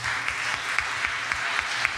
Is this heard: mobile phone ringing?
no